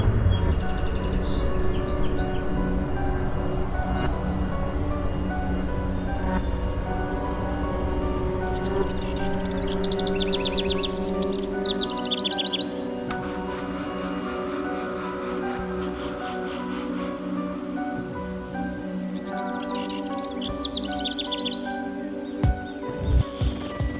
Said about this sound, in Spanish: Oí el canturreo de algunos pájaros y me estremecí. Estaba amaneciendo.